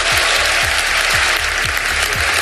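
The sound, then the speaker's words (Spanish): Applause from a party congress crowd greeting a newly elected party president: dense, loud, steady clapping throughout, with a low thud repeating about every half second underneath. “Ha sido su primera ovación al frente de un partido”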